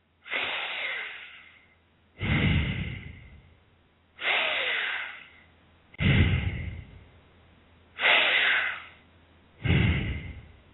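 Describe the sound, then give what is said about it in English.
Long, deep breathing, with the stomach expanding on each inhalation and the chest rising and falling. Six long, breathy sounds alternate between inhales and exhales in a slow, even rhythm, fairly soft and alone. “The diaphragm is kept relaxed and the stomach expands out on the inhalation and back on the exhalation. The chest also rises and falls during long deep breathing. It sounds like this.”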